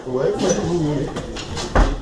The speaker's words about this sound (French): Tu veux fermer la porte ?